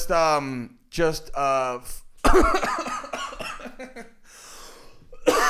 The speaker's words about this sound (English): don't mind my coughing, everyone.